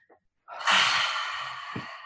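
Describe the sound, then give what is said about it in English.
A deep breathwork inhale drawn in through the mouth: after a short moment of quiet, a long, rushing, airy breath starts and holds at a strong, even level to the end. “Belly, chest, mouth. Belly, chest, mouth. Really suck in the air.”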